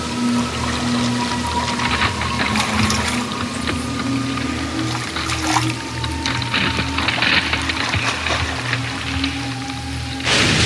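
Water trickles and drips from melting, levitating icebergs spinning under a sun far too close. A steady wet, pouring texture runs over a low droning hum with faint sustained whining tones, continuous throughout and without voices.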